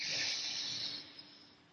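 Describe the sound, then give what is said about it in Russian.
One deep breath during a guided breathing exercise, heard as a single soft, airy hiss that gradually fades away, quiet, with no talking. “И выдыхайте. Вдыхать и выдыхать рекомендуется как можно глубже.”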